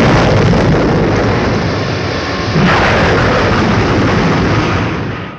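A rocket launch blast for a Moon landing mission: a loud, continuous roaring rumble with a surge partway through that holds strong before tapering slightly at the end.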